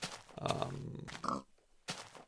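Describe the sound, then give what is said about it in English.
A pig in a video game grunts in a few short, rough, low bursts separated by brief gaps, faint overall. “I guess I'll kill this pig”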